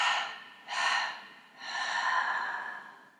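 Breathing during a guided breathing exercise: three airy breaths, two short ones followed by a longer, steady one, with no talk.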